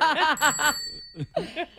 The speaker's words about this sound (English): if you're in, ring the bell. If you're not in, ring the bell twice.